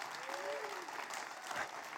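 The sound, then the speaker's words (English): Thin, scattered clapping from a church audience, a faint and sparse patter of hands that stays low and never builds into full applause. “What did I tell you about the awkward church clap? You left that person hanging.”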